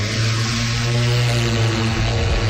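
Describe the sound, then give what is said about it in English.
Steady droning engine hum of a survey aircraft carrying magnetic-field sensing equipment, readying for takeoff; a constant, loud buzz with stable layered tones and no change in pitch. “Okay. Collecting, so ready for takeoff.”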